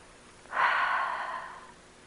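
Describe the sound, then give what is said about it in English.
A single slow, relaxed breath during a guided meditation: a soft, airy exhale that swells gently, holds steady for about a second, then tapers off into quiet. “Just take some relaxed breaths in and out.”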